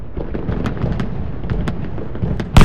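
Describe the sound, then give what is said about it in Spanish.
A single sharp pistol gunshot bursts out near the end, after a stretch of low rumbling background with faint scattered clicks. “lo apunta con la pistola. ¿Pero qué hostias anda? Le dispara.”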